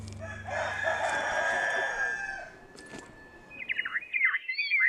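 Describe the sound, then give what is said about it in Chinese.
A rooster crows in one long, sustained call among a free-roaming flock of chickens under dense walnut trees in a rural village. Quicker, higher chirping calls follow after a short lull. “周区县曲马乡程马村的打嘎坪，茂密的核桃树下，不仅有随地走动的鸡群”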